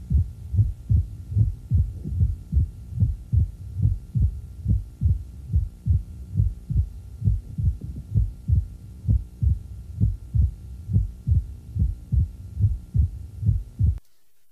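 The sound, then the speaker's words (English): Heart sounds from a patient with severe rheumatic mitral stenosis, with a short interval between the A2 sound and the opening snap. Many soft, low thumps repeat in a steady rhythm over a faint continuous hum. “Short A2 to OS interval from our previous patient with severe rheumatic mitral stenosis.”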